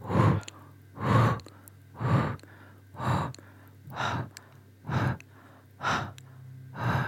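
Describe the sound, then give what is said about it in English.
Breathing exercise of long inhales through the nose and exhales through a rounded mouth: eight strong, breathy rushes of air in an even rhythm of roughly one per second, with quiet gaps between and no talking. “We're going to inhale long through the nose. And out of a rounded mouth, we'll exhale 8 times.”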